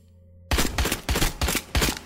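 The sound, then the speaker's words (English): Rapid gunfire from a video game: many sharp, loud bursts of shots arriving in a quick, uneven rhythm, alone without talk. “Let me shoot. You made blood, Chris. Why are you shooting people, Chris?”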